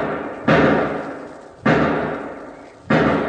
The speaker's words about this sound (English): Hey, 5 shots. Sounds like it's over in one of those sheds.